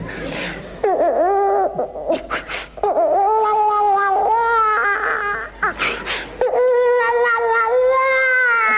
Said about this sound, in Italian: E l'ultimo, che era di 3 mesi. Piangeva e non ci faceva dormire. Senti come piangeva.